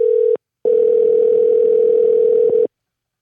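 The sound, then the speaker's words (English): Ringback tone on an outgoing phone call: a steady, low electronic tone sounds alone, first as a short burst, then after a brief gap as one long tone of about two seconds. “We're calling to see if caller is on the line.”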